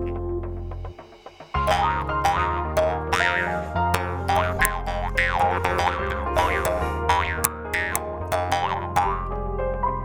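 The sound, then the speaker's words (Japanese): A mukkuri, the Ainu bamboo mouth harp, is plucked over and over, giving many resonant, twangy boings whose overtones shift and warble as the player reshapes the tone, with no talking. “ああ、あれはね、ムックリね。 ムックリ。面白い名前だよね。”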